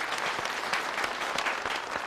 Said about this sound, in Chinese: 来，给王茂同学鼓个掌